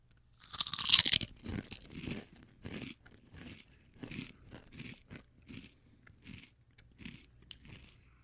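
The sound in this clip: Crunching of Hen of the Woods buttermilk and chives potato chips: a loud, crackling first bite, then many steady, rhythmic chewing crunches that grow gradually softer.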